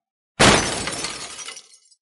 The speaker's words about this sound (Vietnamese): nắm đấm đập mạnh một cái lên trên mặt bàn.